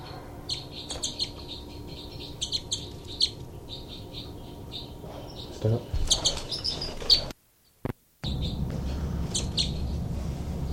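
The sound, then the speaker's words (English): Two birds give threat calls while fighting: many short, high, sharp chirps and a few squawks, in bursts over a steady low background. “Both birds fight by threat call by 318.”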